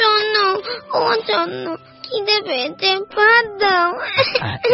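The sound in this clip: A young boy crying: loud, high, wavering wails and sobs come in repeated bursts separated by short catches of breath.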